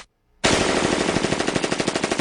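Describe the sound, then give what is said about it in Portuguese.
Rapid automatic gunfire from someone shooting in all directions: a loud, sustained burst of fast, evenly spaced shots that starts abruptly after a brief silence and keeps going to the end. “Ele tá atirando pra todo lado”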